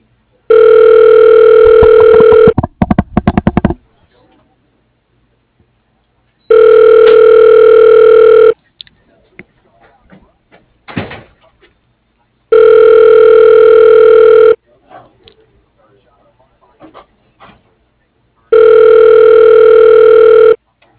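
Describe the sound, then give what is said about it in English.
Telephone ringing while a call connects: four long, steady ring tones of about two seconds each, evenly spaced by longer gaps in which faint rustles and clicks are heard. “Please state your name after the tone, and Google Voice will try to connect you.”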